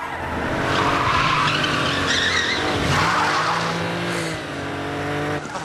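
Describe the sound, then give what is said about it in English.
Car tires screech loudly as the car swerves round a corner, mixed with engine noise. The skid is a sustained, harsh squeal that holds for several seconds before easing slightly at the end. “Ryan screeches round a corner and heads for LA Airport”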